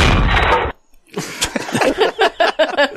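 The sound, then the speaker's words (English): A church altar falls over with a loud, dense crash that cuts off abruptly, followed after a brief gap by scattered clatter and murmuring voices. “The altar just fell. Sound man is going to get fired.”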